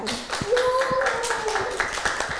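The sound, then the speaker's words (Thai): Children clap for a classmate during a class session, a brief patter of claps with voices heard alongside. “ปรบมือให้น้องเกดด้วยค่ะ”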